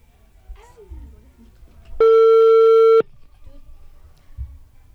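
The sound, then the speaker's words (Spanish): A single ring tone of about one second sounds as a telephone call is placed. The bright, steady tone rises sharply out of a quiet, low background, stops abruptly, and the quiet background continues afterward. “vamos a hacer una llamada telefónica”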